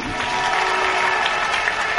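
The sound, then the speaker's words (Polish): A crowd applauds speedway riders at the Grand Prix Challenge ceremony in Rybnik, a thick, continuous wash of clapping at a steady, fairly loud level. “Gorące, gorące brawa.”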